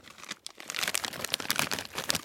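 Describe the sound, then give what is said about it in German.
Crinkling plastic foil of a snack package, heard as many crisp crackles and rustles that keep going with uneven bursts of loudness, fairly quiet overall. “Das klingt immer gleich. Das ist wunderschön. Das andere war letztes Mal, da war die Folie schon ein bisschen dünner als das. Es war knackiger.”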